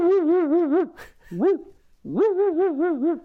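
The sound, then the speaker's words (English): A person's voice imitates a Labrador dog barking with three throaty, voiced calls. Two are long and wavering, with a short call between them. The calls are fairly loud and heard alone. “You have your basic Labradors, and that's like,”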